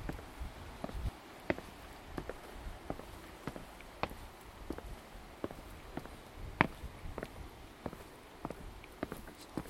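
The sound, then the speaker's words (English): Footsteps of someone walking down steep steps to St. Govan's Chapel: many faint, uneven footfalls in an irregular rhythm. “we're just going down the steps now to a place called St. Govan's Chapel. And they're really steep steps, so I've got to be careful.”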